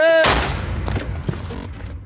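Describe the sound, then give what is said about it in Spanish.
Gunfire in a street shooting in a busy area of the Sinaloa state capital: one loud, sharp blast that decays, followed by a few fainter cracks. “Ocurrió en segundos en una zona transitada en plena capital de Sinaloa, a unos metros de la Fiscalía Estatal. Disparan, matan y escapan.”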